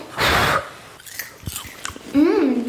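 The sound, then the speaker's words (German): Someone eats hot homemade popcorn made from blue-purple corn: a burst of blowing on it, then a few soft crunching chews, ending with a brief hummed voice. “Wir haben einen ganzen Topf voll mit selbstgemachtem Popcorn. Probieren wir. Heiß, heiß, heiß, heiß, heiß. Pusten.”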